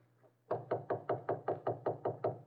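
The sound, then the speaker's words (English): Knocking on a study door: a steady, evenly spaced run of many firm knuckle raps, clear and alone after a low hum at the start. “Here's the door of the study. I'll knock.”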